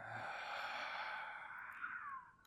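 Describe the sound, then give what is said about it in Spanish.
A long, soft breath pushed out through the mouth during a guided breathing meditation, a steady airy hiss that thins and fades toward the end. “Inhala profundo por tu nariz hasta llegar al tope máximo sin prisa. Y exhala con alivio por tu boca.”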